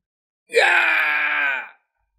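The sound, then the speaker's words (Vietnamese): A single anguished scream from a warrior struck down by an arrow: one loud, sustained, strained cry lasting just over a second, jumping up in pitch at the onset and then holding steady before cutting off, with nothing else heard. “Một tiếng hét thảm khác được truyền đến”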